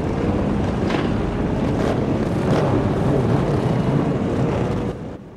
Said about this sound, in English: The bandit army fire up their engines.